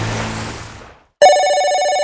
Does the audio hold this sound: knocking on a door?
no